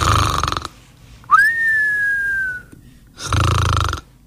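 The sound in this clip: A person imitates snoring while pretending to sleep: two loud, rasping snores separated by a long whistled tone that jumps up quickly, then slowly glides down before fading.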